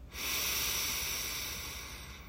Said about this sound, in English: Gently inhale through your nose.